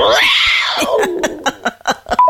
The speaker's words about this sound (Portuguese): Tá um gato se espreguiçando. Isso é a pantera, né? A pantera engasgada.